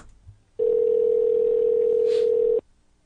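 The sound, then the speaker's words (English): A telephone call tone sounds as a call is placed: one steady, even electronic tone comes in after a short quiet moment, holds for about two seconds at constant loudness, then cuts off. “And let me make a call now.”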